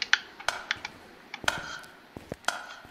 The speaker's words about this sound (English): can I match this metronome? Oh, I can.